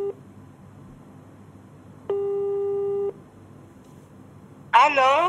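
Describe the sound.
A single steady ring tone from an outgoing telephone call to a hotel contact sounds for about a second against a quiet background, and a voice briefly begins near the end.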